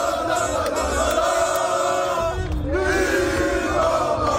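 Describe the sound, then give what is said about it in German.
Fans at a public viewing in Düsseldorf celebrating Morocco's World Cup win: loud, sustained chanting and cheering from many voices, with a brief dip partway through before the roar resumes. “Was ihr gerade hört, das war ein Public Viewing in Düsseldorf nach dem letzten Sieg von Marokko.”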